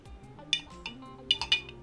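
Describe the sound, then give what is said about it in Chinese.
A spoon clinks against a glass while stirring a drink of milk, honey and grass jelly, giving a few light, bright clinks at uneven intervals over a soft background. “就是牛奶、蜂蜜跟仙草这样。 Yes，是的。 好，你喝。 搅拌的声音，”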